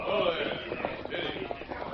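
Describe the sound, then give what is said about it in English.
Hooves of a string of horses being led by two men toward a pass: a faint, continuous clip-clop of overlapping steps, muffled under a steady background hiss. “2 men, and they're leading a string of horses.”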